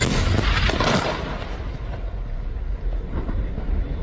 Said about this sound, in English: Well, that was the sound of an Israeli strike on a building in one of the largest cities in the country, Tyre.